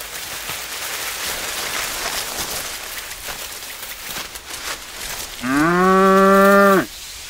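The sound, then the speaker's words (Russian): A spotted cow with rope-tied horns, standing among cattails, gives one long, loud, droning moo near the end, after several seconds of steady rain-like noise. “Среди рогоза стоит пятнистая корова. Ее рога обвязаны веревкой.”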